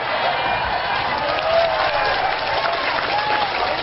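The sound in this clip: Sustained dense applause from a crowd at a public talk, a loud, steady wash of many hands clapping with no pauses throughout.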